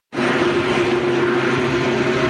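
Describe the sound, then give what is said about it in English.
Helicopter hovering over a wildfire in Parkland County near Edmonton: a loud, steady roar of engine and rotor that starts abruptly and holds without pause, with no talk. “This helicopter hovers over a fire that stopped just steps from Danny Yagi's home in Parkland County”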